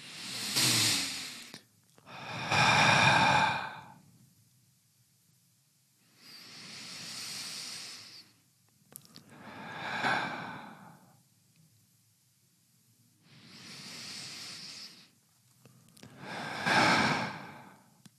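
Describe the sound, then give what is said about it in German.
Deep breaths drawn in through the nose and let out, six separate breathy hiss bursts in slow alternation, fairly loud, with near silence between each. “Lass uns mal drei Atemzüge durchführen. Dann können wir es aber. Achtung. Durch die Nase aber.”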